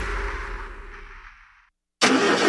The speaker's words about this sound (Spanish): ¿El motor de tu vehículo está pidiendo un buen afinado?